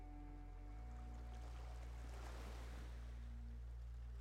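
Waves wash in and out on a beach: a faint, steady hiss of water swells to a fuller rush midway, then settles back.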